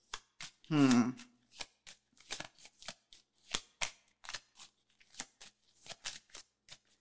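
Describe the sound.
Tarot cards being shuffled: a deck riffled and bridged in many crisp, rapid snapping bursts that come in an uneven rhythm throughout, with a brief voice sound early on.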